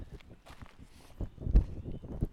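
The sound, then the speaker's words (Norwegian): Footsteps of someone walking calmly on a hike, a steady run of soft, low thuds at an easy pace, with a few heavier steps near the end. “Sånn, så tusler jeg rolig på min tur.”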